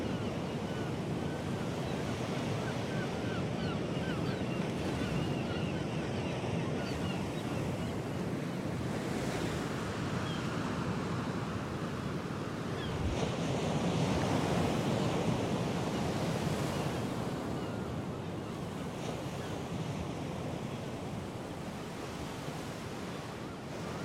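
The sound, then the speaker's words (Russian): Daytime sea waves wash and splash onto a rocky shore in a continuous, loud roar of surf, with steady wind noise blowing across it and no voices. “Волны моря выплескиваются на каменный берег.”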